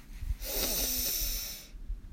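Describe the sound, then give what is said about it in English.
A single deep inhalation during a guided relaxation and breathing practice: a quiet, airy hiss lasting a little over a second, heard alone without talk. “Take a deep breath in”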